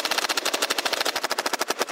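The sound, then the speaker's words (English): A Nerf toy gun fires a fast, even train of many sharp, hissy pops over two seconds. The shots are loud and steady, with no voices. “Johnson then turned his engineering eye on the Nerf gun. Shoot.”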